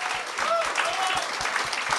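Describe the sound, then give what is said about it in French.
Crowd applause at a live stage show as a guest is invited up, with dense clapping held at a steady level over a regular series of deep, low thuds. “Applaudissez-le.”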